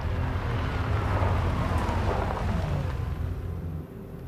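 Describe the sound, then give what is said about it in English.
A car pulls into a railway depot and comes to a stop, a steady low engine rumble that fades out near the end. “Bond's car arrives at the depot. A local swigs beer as the car comes to a stop.”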